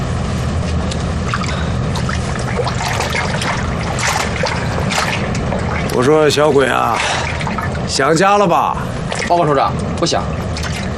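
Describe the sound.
Water is poured and splashed for washing the face at a wartime army command post, a continuous trickling wash with brief voices over it.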